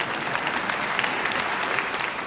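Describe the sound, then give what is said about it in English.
An audience clapping at Moody Church, a dense, steady clatter of many hands that stays evenly loud throughout, with no speech over it. “But the simple, you can go ahead and clap.”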